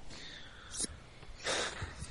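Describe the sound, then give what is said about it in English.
A man sneezes: a short sharp burst, then a louder, longer explosive one a moment later, with no talk around it. “He's sneezing, man. He's sneezing.”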